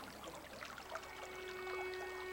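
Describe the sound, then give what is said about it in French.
Faint flowing water from an underground river in a cave passage. A soft, continuous trickling burble runs steadily through the short clip, with no voices. “Sur plusieurs centaines de mètres, nous suivons cette rivière dans le passage dit du torticolis.”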